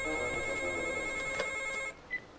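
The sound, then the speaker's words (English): A telephone bell rings in a continuous bright, tonal trill, then cuts off abruptly, followed by a short faint tone. “She briskly strides to the phone and picks up.”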